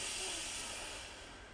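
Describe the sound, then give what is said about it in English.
Soft, breathy hiss of a slow exhale during a guided breathing exercise, steady at first and then gently fading, with no talk. “Breathe in and out. One last time, breathe in”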